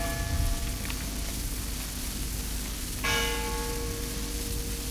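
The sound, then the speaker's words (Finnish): Funeral bells tolling, faint ringing tones decaying at the start and a fresh bell strike at about three seconds that rings on, all over a steady soft hiss with no voices. “Kun hautajaiskellojen ääni sitten kantautui mökkiini”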